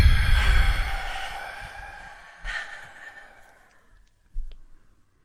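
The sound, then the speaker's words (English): A deep breath is blown out during a relaxation exercise as a long airy whoosh that gradually fades, followed by a couple of shorter soft breath sounds. “Here we go. Deep breath in.”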